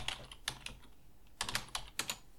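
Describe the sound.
Typing on a computer keyboard: quick clusters of soft key clicks, a short lull, then another few bursts of taps, fairly faint and with no voices.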